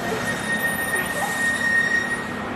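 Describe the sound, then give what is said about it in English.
Bicycle brakes squeal while cycling down a wide city boulevard: a thin, high, wavering whine that comes and goes in short bursts over a steady rumble of background noise. “It's nice I've got squeaky brakes.”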